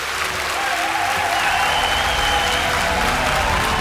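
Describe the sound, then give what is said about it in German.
Applause from a theater audience at a curtain call after a school stage show, a dense, continuous roar of clapping that holds steady at a strong level throughout. “Dann öffnet sich der Vorhang noch einmal für eine Runde Extra-Applaus.”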